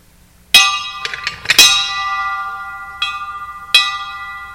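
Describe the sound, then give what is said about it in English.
A bell rung to signal the start, struck in an uneven series: one loud first strike, a quick cluster of hits, then two spaced strikes, each leaving a bright, sustained ringing tone that slowly fades. “We didn't say to ring the bell. We put this bell out there to signal the start of everything.”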